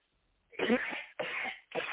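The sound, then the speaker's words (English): Three harsh, breathy coughs come in quick succession after a moment of quiet. Each burst is moderately loud and separated by a short gap, with no speech around them. “that is the devil trying to prevent me from giving this message because I haven't coughed all day until now.”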